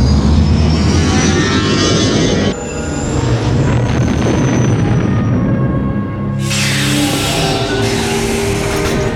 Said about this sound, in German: Mach dich für die Landung bereit. Wir befinden uns bereits im Anflug.